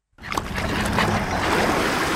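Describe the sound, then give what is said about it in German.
Gentle waves lapping on a beach along the Gulf of Gabès in southeastern Tunisia, heard as a steady, soft rushing wash of water that starts abruptly and keeps an even level throughout. “Sanft schwappen die Wellen an den Strand des Golf von Gäbes”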